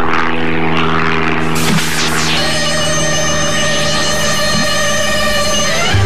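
A propeller aircraft landing gives a loud, steady engine drone with a strong tonal hum and buzzing harmonics, the pitch shifting slightly as it goes, with no other sound.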